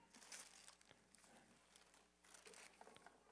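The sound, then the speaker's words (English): Wrapping paper crinkling and tearing as a child rips open a gift, a faint, continuous rustle broken by a few sharper rips. “You don't have to get it all off. Just go through the top now. This guy's a thorough gift unwrapper. Oh, yeah. Now, that away, buddy. Keep ripping.”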